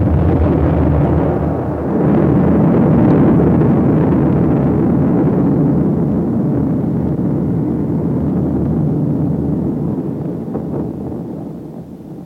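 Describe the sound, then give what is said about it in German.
An atomic bomb explosion rolls out as a deep, loud, sustained roar. The broad rumble holds steady for many seconds and only slowly thins and fades toward the end. “Was war denn das um Himmels Willen? Das war die Explosion einer Atombombe.”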